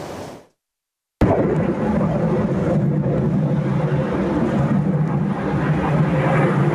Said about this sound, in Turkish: Yalova'da eğitim uçuşu yapan bir F-16 düştü. O ana dair görüntüler de ekranlarınıza geliyor.